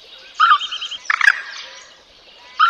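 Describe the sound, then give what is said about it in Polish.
Common moorhen calling at night: three separate bouts of loud, harsh, nasal calls. The first is a quick stuttering series, and the others are short sharp bursts, with quiet between them. “W nocy możemy jeszcze usłyszeć kokoszki. Kokoszka, czyli kurka wodna.”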